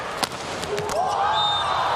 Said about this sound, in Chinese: 哦，西田有志的发球